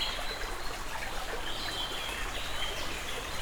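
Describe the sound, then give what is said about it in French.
A small stream flows through a forest, giving a steady, even rush of trickling water that holds at one level throughout with no clear breaks. “Une légère pente m'a permis de regagner ce petit cours d'eau.”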